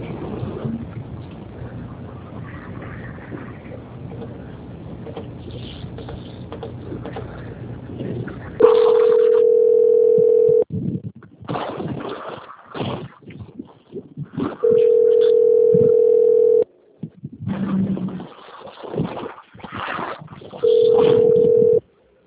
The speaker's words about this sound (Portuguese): Agora peço que já aguarde linha que eu vou transferir lá para o controle de qualidade do Banco Santander